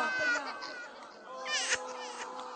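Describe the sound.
A restless baby cries in high, wavering wails that rise and dip, with short breaks between the cries and a fuller outburst near the end.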